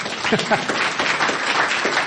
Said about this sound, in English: Maybe a round of applause if you did.